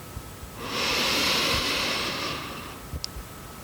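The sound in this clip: One deep, airy breath from a person during a progressive muscle relaxation exercise, swelling into a long, soft hiss that holds steady for a couple of seconds, then fades. No other sounds.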